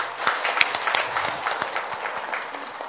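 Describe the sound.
An audience applauds at a mindfulness talk, with dense, steady clapping that holds for the whole stretch before easing slightly toward the end.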